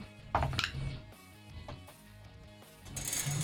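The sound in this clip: Dice clatter in a glass dice tray during a tabletop role-playing game, giving a few sharp, faint clinks and rattles.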